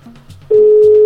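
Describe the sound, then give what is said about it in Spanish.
Ringback tone of an outgoing telephone call: after some faint, low tones, a loud, steady electronic tone starts partway through and holds unbroken to the end. “Ahí está ya timbrando. Vamos a ver si nos recibe la llamada Dana Sofía”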